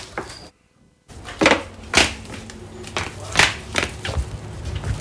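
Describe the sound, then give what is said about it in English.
Footsteps of someone walking down stairs: a string of irregular thuds and scuffs at a moderate pace after a brief silent gap, moderately loud over a low background. “Alright, I'm assuming he's walking down the stairs now.”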